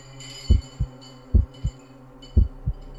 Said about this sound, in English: You can hear your heartbeat in your ears,